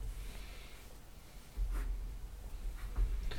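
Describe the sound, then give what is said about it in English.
Someone writes something down by hand, making faint, scratchy strokes in a few short bursts with quiet breathing. “I got to write it down. Hang on, guys.”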